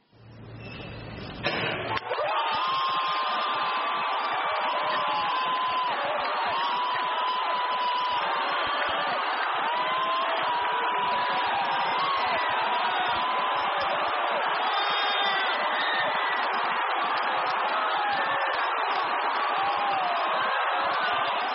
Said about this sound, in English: When you hear cheering, it is an unbelievable sound like this. This is how cheering sounds.